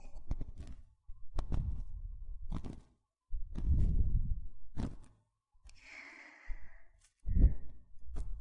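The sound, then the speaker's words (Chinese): Slow breathing in and out, heard as several soft, airy breaths separated by quiet pauses, fairly faint and with no talking. “吸气，吐气，”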